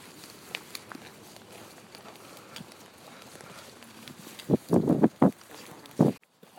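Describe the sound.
Footsteps on asphalt walk uphill, first as faint steady taps, then a few louder knocks near the end.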